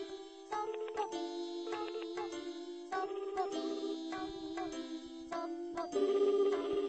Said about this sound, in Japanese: 現在呼び出し中、現在呼び出し中。